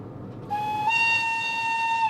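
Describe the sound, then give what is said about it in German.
A narrow-gauge adhesion train descends a 73 per mille gradient on a steep Swiss mountain line in winter. A steady rolling rumble runs throughout, and after half a second a loud, sustained whistle joins it and holds to the end. “Und es geht gleich wieder bergab. Und zwar mit 73 Promille Gefälle. Wir befahren eine der steilsten Schmalspurstrecken der Schweiz mit Adhäsionsbetrieb.”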